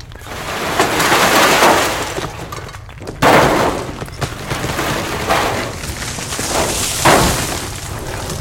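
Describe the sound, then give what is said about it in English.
Loud crashing sound effect of a giant Venus flytrap bursting up through a floor in an audio drama: dense, sustained breaking and shattering noise with deep rumble, punctuated by a few sharper bursts of impact. “Mr. Grump aimed his weapon at me. But before he could complete his attack, a large Venus flytrap burst from the floor behind him.”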